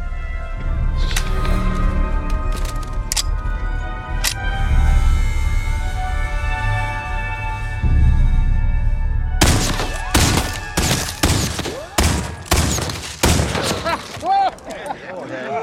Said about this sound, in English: That's some fancy shooting there.